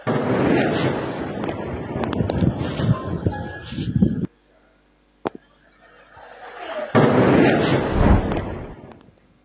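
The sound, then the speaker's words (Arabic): Israeli artillery shelling striking the town of Mayfadoun and the Ali al-Taher heights in southern Lebanon: heavy rumbling blasts fill two loud stretches, separated by near silence broken by a single sharp crack. “استهدف قصف مدفعي إسرائيلي بلدة ميفدون، كما طاول القصف مرتفعات علي الطاهر.”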